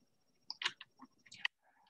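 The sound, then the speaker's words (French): Typing a message on a computer keyboard in a team chat app: irregular bursts of crisp key clicks, fairly faint and heard alone, with short pauses between the clusters. “Si je tape mon message ici,”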